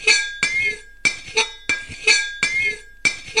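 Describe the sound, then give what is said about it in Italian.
A ruler dragged across a glass bottle makes bright, glassy clinks with ringing overtones. The sharp strikes come one after another in an uneven rhythm, each fading quickly before the next. “è il suono di un righello su una bottiglia.”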